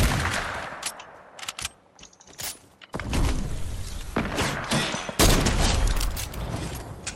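Rapid hunting-rifle gunshots ring out in a video game, a loud run of many sharp, crackling bursts with heavier thuds in places and no voices over them.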